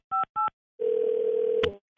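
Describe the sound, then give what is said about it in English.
Telephone tones while calling a work phone: two short dual-pitched dialing beeps, then a steady mid-pitched tone held for about a second, ending in a click before another tone begins. “We're going to call him on his work phone because obviously he doesn't have a cell phone.”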